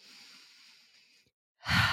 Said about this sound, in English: let's all first take a deep breath